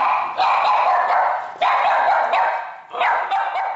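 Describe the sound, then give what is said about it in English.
Dogs barking, one playfully and one angrily at a stranger: loud, sharp barks and yips in a few dense runs, close together and with no talk. “Now, can you tell the difference in mood between this dog and this one?”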